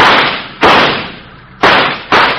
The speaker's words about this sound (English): Hey, you shot that dangling fuse right off.